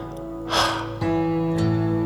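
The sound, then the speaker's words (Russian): A deep breath drawn in and then let out through the mouth: one breathy rush of air, softly audible over steady sustained low tones that continue throughout. “Повтори вдох. Как можно глубже, чтобы воздух прошел через все твои легкие. И выдох через рот.”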